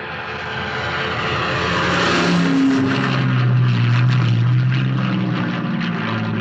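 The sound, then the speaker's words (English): A WWII Hurricane or Spitfire fighter's piston engine, troubled by carburetor flooding, drones as a continuous loud propeller roar that swells slightly and then holds steady, with a low wavering hum underneath. “Here comes the fatal flaw. Fuel starvation, or actually flooding. It was a carburetor. That was the problem with the English fighters at the beginning of the Battle of Britain.”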